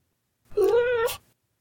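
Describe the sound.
An ocelot meows once, a clear, fairly loud cat-like call lasting well under a second and heard alone.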